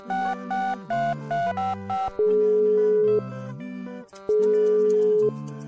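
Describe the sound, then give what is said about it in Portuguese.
An outgoing WhatsApp call produces a ringing tone: a melodic pattern of stepped electronic notes that repeats at an even, moderate loudness, with no voices. “Deixa eu ligar aqui pro Steve no WhatsApp.”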